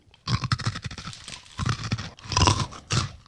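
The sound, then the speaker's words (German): Crunchy chewing of crispy fried rice cracker pieces seasoned with garlic, sweet and hot: a dense run of crisp crackles and munching bursts, loud and alone. “Schön knusprig. Okay, also mit der klassischen Reiswaffel hat das nichts mehr zu tun. Das sind wahrscheinlich so Reiswaffelbrocken,”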